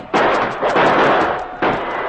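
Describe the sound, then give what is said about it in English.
Loud gunshots ring out as defenders fire at attackers charging a frontier post, with a few heavy blasts at uneven intervals, each followed by a long, rumbling decay. “Accurate shots from Chet and the sergeant stopped the first two braves, and the others faltered.”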